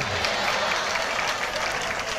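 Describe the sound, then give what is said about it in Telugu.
Congregation clapping hands while giving praise in worship, a dense, continuous round of applause that stays steady throughout, with some voices mixed in. “స్తోత్రాలు చెప్తూ చప్పట్లు కొట్టండి”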